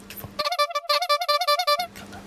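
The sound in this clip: A honking sound effect bleeps out speech: a burst of many rapid, bright, buzzy honk pulses in an even rhythm, with talk just before and after.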